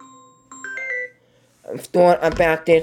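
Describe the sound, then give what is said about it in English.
Mobile phone ringtone: a short electronic melody of a few steady, high tonal notes that stops after about a second, followed by a voice talking. “Sorry about my phone calling on.”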